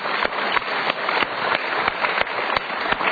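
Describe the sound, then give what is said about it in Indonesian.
Applause played as a sound effect on a talk show: a muffled, dense clatter of many hands clapping, with sharper single claps standing out at fairly regular intervals, heard alone without talk. “Tampilkan tepuk tangan.”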